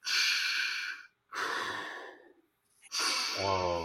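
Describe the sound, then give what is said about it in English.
A voice imitates a movie villain's slow, mechanical deep breathing: three long rasping breaths separated by short pauses, the last sliding into a low voiced hum. “it's that deep breath, that...”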